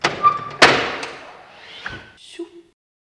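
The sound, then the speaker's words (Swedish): Heavy old bank vault door in a former Sundsvallsbanken building, closing with a loud thud and then a bigger slam, followed by softer scraping and creaking of the mechanism and a short faint tonal squeak near the end. “Här har du ett spännande ljud förresten. Här har vi då kassavalvet.”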